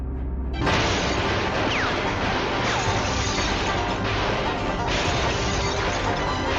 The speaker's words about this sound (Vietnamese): Một làn mưa đạn từ trong nhà bắn ra, hướng tới 2 chiếc xe cảnh sát. Một cuộc đấu súng nghẹt thở đã diễn ra vô cùng bất ngờ.